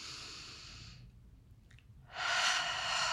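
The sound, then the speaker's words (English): A person takes a deep breath: a soft airy breath, a pause of near silence, then a longer, louder rush of breath. “if we all sit here and take a deep breath”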